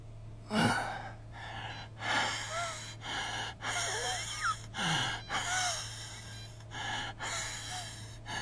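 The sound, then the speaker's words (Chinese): An old man's laboured, wheezing breathing: a long run of rasping gasps and snorting breaths with thin whistling wheezes, fairly faint, coming in uneven bursts and likened to a leaking bellows. “老爷子呼吸艰难，像是拉漏气的风箱。”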